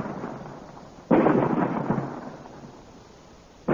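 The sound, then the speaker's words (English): Cannon fire blasting a rock apart: two heavy, loud booms with long rumbling decays, the second cutting in near the end. “They have found the range, Commander. You may fire. Fire! Look, the rock is splitting.”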